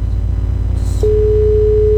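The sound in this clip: A telephone line tone sounds after a call disconnects during a call-in. A steady tone at one constant pitch starts midway and holds unbroken to the end over a low background hum.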